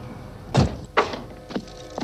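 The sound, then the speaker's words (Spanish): A house door is being opened, heard as four short, dull thuds spaced roughly half a second apart. The first is the heaviest and the later ones are softer, with quiet gaps between them. “Bajan del vehículo y Kevin abre la puerta de la casa.”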